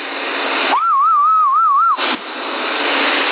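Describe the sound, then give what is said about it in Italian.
A low, wavering whistle carried over a CB radio channel, one sustained warbling tone lasting about a second, set between stretches of steady radio hiss that cut off sharply around it. “C'era un fischio basso, ma non credo sia lui.”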